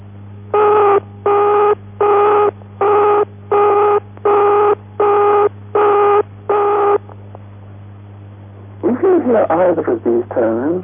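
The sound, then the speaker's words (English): A telephone engaged tone sounds as nine evenly spaced, equal bursts of a steady mid-pitched tone separated by short gaps, followed by a spoken voice. “Alternatively, the engaged tone may sound like this.”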